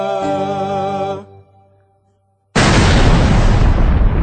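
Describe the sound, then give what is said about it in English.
A loud explosion sound effect bursts in suddenly and roars on steadily to the end. Before it come a short tonal musical phrase and about a second of silence. “A blast is heard.”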